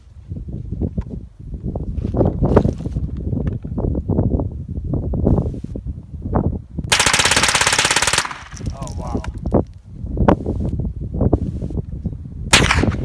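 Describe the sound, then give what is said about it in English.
Guns are fired at a shooting range in Arizona: many sharp shots in rapid, uneven bursts, including one sustained stretch of fast automatic fire, with wind buffeting the microphone between volleys. “But anyway, I got to shoot a lot of guns this weekend. Arizona's a great state full of guns and freedom and America.”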